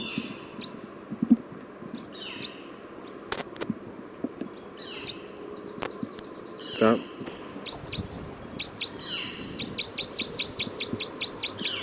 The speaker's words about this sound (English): Okay, recording bird 306.